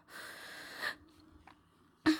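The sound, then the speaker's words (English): A person taking a breath: a long, noisy, soft inhale lasting most of a second, a quiet pause, then a short, sharp burst of breath at the end. “We're gonna take a breath.”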